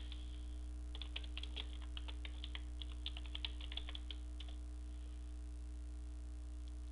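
Typing on a computer keyboard while entering a web address in a browser: a quick run of many soft key clicks over a steady low electrical hum, then the keys fall silent.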